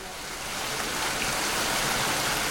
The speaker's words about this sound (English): as we try to escape a very British downpour